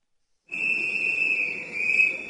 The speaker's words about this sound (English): The conductor's whistle signals the beginning of class as the express train from Reims to Paris pulls out of the station.